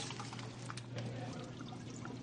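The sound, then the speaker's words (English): Faint splashing and trickling as blanched fiddleheads are lifted with a slotted spoon into a bowl of very cold water, a soft, continuous watery patter under a low steady hum. “I'm taking a slotted spoon, and I'm just putting them into a bowl of very cold water, which will stop that cooking.”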